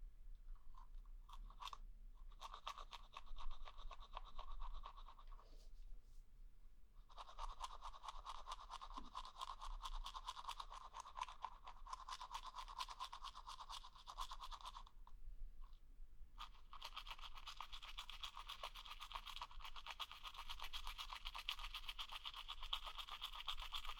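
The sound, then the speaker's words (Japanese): Toothbrush scrubbing the backs of the teeth with the brush held vertically: fast, steady bristle rasping, faint, in three long stretches broken by two short pauses. “歯の裏もね。歯ブラシを縦に向けて、”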